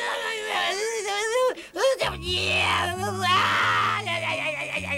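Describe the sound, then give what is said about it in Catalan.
A person wails and cries loudly over a destroyed castle in a drama, the voice wavering and sobbing in long, shaky moans, with music entering softly beneath partway through. “Plora.”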